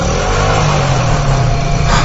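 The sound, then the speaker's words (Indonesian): A motorcycle engine is pushed hard on the throttle, giving a loud, steady, low droning roar that holds evenly through the short stretch without any clear change in pitch. “Iya, aku melihat hantu. Buru-buru ku tancap gas motorku.”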